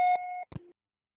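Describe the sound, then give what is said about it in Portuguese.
Voicemail beep sounding after a recorded message: a steady electronic tone rich in harmonics lasting under half a second, then a brief click and a short lower tone, followed by silence. “Sua chamada está sendo encaminhada à caixa postal e estará sujeita à cobrança após o sinal.”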